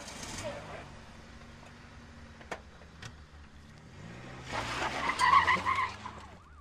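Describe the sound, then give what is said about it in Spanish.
A Ford Falcon car pushed to its limit, accelerating hard. A rough engine drone builds into a loud, wavering tire squeal near the end. “acelera su Falcon al límite para llegar puntual a cumplir la ley.”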